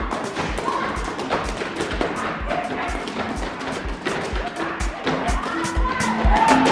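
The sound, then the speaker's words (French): Pantsula dancers' feet stamping the ground in Katlehong, a fast, steady rhythm of many heavy thuds, with voices underneath throughout. “Dans le quartier de Katlehong, on peut entendre les pieds des danseurs qui martèlent le sol.”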